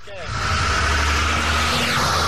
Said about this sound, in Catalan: Acaba de passar un camió de pero.